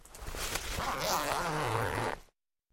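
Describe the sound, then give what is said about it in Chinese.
A zipper is pulled open on a black bag resting on a table: one continuous rasping pull lasting about two seconds, then it stops abruptly into silence. “他把拎来的黑色包放在桌子上，拉开了拉链，”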